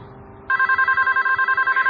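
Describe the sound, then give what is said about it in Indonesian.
A telephone bell rings in a room, breaking in abruptly after a low murmur and trilling on rapidly in a bright, loud, steady pulse until the end. “ini telepon bikin kaget aja deh ah. Ada suara telepon berbunyi di kamar itu.”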